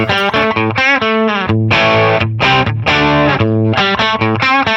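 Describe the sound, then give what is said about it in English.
An electric guitar played through an effects pedal gives a loud, thick, distorted tone with rich harmonics. A short run of sustained notes and chords shifts in pitch, broken by brief cuts between phrases. “when I step on that pedal, it sounds like that pedal. I have three of them. Okay, let's hear that thing.”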